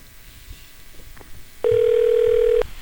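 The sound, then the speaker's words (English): A telephone dial tone sounds as a loud, steady, level hum lasting about a second. It starts abruptly after a quiet stretch and then cuts off. “little bit of dialing. Nothing ever wrong with that.”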